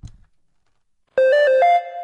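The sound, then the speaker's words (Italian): A phone message notification chime rings out alone: a bright, loud melodic tone of a few quick stepped notes that ends on a slightly higher sustained note. “Nuovo messaggio da Sara. Oggi Pilates. 15 notifiche sul gruppo palestra.”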